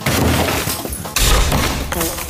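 A block of ice cracks and breaks apart to free headphones frozen inside, a dense, loud crunching and splintering that continues throughout, with a fresh burst of harsher cracking about halfway through.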